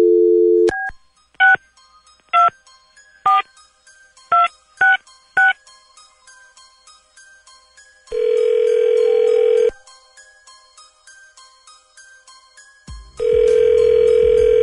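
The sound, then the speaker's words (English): Telephone number dialed at random on a keypad: a brief dial tone, then a series of short, sharp touch-tone beeps, followed by two long, steady ringing tones. “let's find out. Dialing at random.”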